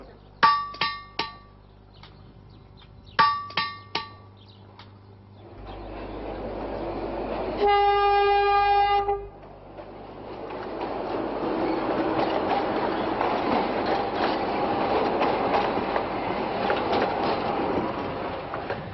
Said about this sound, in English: These old narrow rails have led us to the region called Nuts 4.